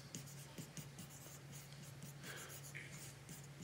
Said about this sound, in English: I'm going to misspell something writing this fast.